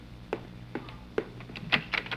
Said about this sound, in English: The front door.